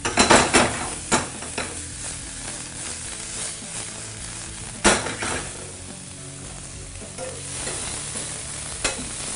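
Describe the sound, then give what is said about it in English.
Pasta being tossed with olive oil and ricotta, a steady sizzling hiss running throughout with a few sharp clattering knocks and scrapes of utensils against the pan. “Just throw a little olive oil in there and toss it with the ricotta, and just add all this stuff.”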